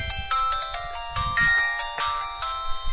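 A mobile phone plays its power-on jingle, a short bright melody of electronic tones in quick succession over a faint low rumble.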